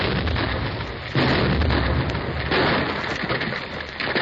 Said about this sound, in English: The big blast will start the whole hill sliding down to my tunnel. It might bury our machinery under 10 feet of rock.